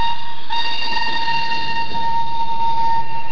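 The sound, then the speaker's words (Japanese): Railway train sound with a steady, loud tonal whine or horn-like drone holding a constant pitch throughout, over a continuous rumbling background, with no voices. “鉄旅音旅は毎週こんな鉄道の音で盛り上がります”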